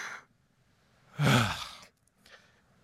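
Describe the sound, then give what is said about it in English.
A single deep, sharp inhale, as of a man in excruciating pain on a cross straining for a moment of relief: one loud, breathy intake lasting under a second, with near silence before and after. “He inhales.”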